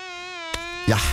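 A mosquito buzzes with a thin, steady, high-pitched whine, broken by a brief click partway through and ending in a louder, noisy burst.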